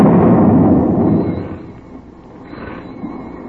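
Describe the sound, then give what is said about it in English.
A single heavy boom from a submarine's deck gun firing a shot across a ship's bow, loud and low, rolling and fading over a couple of seconds with no voices. “They got their deck gun manned. They're firing across our bow.”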